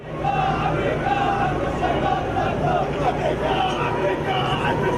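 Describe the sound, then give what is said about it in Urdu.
Protesters carrying black flags chant slogans outside the US embassy compound in Beirut, a demonstration against the US decision to recognise Jerusalem as Israel's capital. Loud massed voices chant in repeated rhythmic phrases over crowd babble. “ہاتھ میں کالے جھنڈے لیے مظاہرین نعرے لگاتے ہوئے امریکی سفارت خانے کے کمپاؤنڈ کے باہر جمع ہو گئے”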